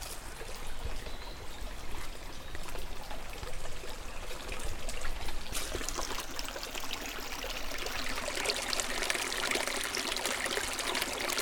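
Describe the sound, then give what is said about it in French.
Flowing water on a waterway being navigated, a steady, soft rushing and trickling that continues evenly on its own throughout. “On vous laisse naviguer au rythme de l'eau.”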